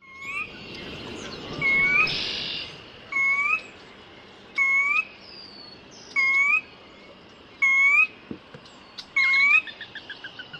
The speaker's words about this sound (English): Chestnut-sided warbler.